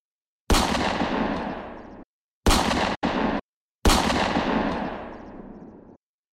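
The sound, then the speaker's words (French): Pistol gunshots inside a gang's headquarters: four loud blasts, each a sharp crack with a long roaring tail. The second and third come close together, and no voices are heard. “Ace descend du building en rappel et remonte dans le QG des guépards pour assassiner Yasmat, le boss, et Shenzi, son bras droit, à l'aide de son pistolet.”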